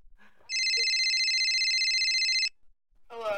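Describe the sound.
A telephone rings once while calling someone, a single steady electronic tone of about two seconds, followed by a short pause and the start of a voice.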